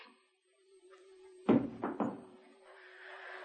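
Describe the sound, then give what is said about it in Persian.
A shoe is thrown into the middle of a room. It lands with a sharp thud, followed by two quicker, softer knocks, and the space is otherwise quiet. “رضا میره روی صندلی هواپیما میشینه و یه لنگه کفشش رو در میاره، کفش رو پرت میکنه وسط اتاق.”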